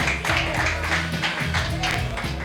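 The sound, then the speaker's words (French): Applause from a live audience greeting a columnist before his first live segment, a dense, steady wash of many hands clapping that runs evenly through the whole stretch. “Est-ce qu'on peut applaudir Pierre pour sa première chronique en live ?”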